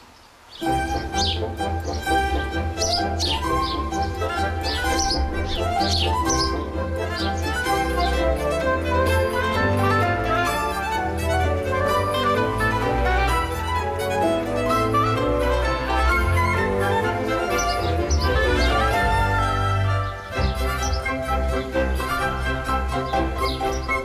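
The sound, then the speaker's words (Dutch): Many house sparrows twittering in a busy, continuous chorus of high chirps and chatter over steady background noise, with no pause throughout. “Maar de mus viert het leven en doet dat op een hele gezellige manier met veel gekwetter.”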